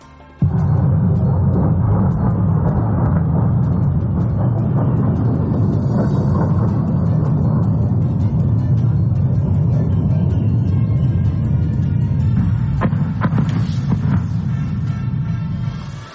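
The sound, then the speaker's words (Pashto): Military aircraft attacking near Damascus, Syria, heard as a loud, continuous low rumbling roar that holds steady for the whole stretch with no breaks. “دا د هغه الوتکو ژغ چې رویټرز اژانس ثبت د دوی ژغونه ثبت کړي دي چې تقریبا نیم ساعت مخکې د سوریې مرکز دمشق ته نږدې حمله کولې.”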